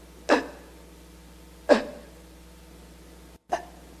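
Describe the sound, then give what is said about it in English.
A voice imitates laboured, gasping breathing: three sharp, abrupt gasps, spaced over a second apart, with quiet pauses between them. “every breath that you take, you have to fight and struggle to get even the tiniest bit of air. And I'll just try to describe to you, I'll show you how I had to breathe. It was like this.”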